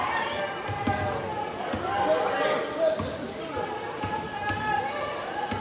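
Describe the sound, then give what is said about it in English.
A basketball is dribbled on the court during a women's college game, making a run of repeated hollow thuds under steady commentary. “They're doing some dribble handoffs here with Nazarene, but they're not seeming to go anywhere yet.”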